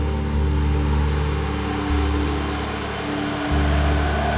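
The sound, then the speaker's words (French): A car driving on a road in the Andes toward Lake Titicaca: a steady low engine drone and road rumble whose tone shifts a couple of times, with no voices. “Je roule vers le lac Titicaca.”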